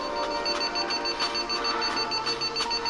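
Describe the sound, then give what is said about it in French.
An alert beep from a heart monitor telling a jogging woman to slow down: a rapid, evenly paced series of high electronic beeps repeating over a steady tone, with no voices. “L'alerte lui demande de ralentir.”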